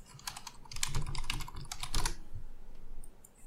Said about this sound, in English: I literally typed the word actual play podcast into the internet.